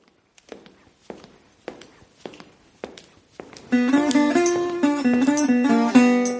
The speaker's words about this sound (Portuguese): Mas antes disso, solta a vinheta.